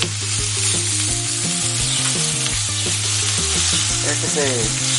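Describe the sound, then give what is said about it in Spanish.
Onion sizzles as it fries in butter in a pan for a cheese steak, a loud, steady, continuous hiss with no talk over it. “Se dore un poquito la cebolla con la mantequilla.”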